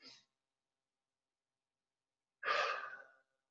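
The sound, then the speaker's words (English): A single deep breath, drawn in and let out in an audible, airy rush lasting under a second, stands alone in silence, with a brief faint breath at the very start. “So if you'll go with me, let's take a breath.”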